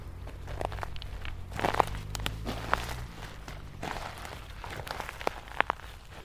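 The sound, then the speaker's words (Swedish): Running footsteps and rustling as a dog races through pine forest tracking a scent, its owner running behind: irregular, fairly faint crunching steps over the forest floor with a few sharper snaps standing out, and no talk. “Nu rusar Sigge genom tallskogen med husse springande efter och han verkar nosa upp eh, den plats som Micke gick på tidigare.”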